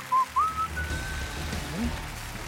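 A person whistles a catchy song tune: a few short, clear, high notes, faint and alone.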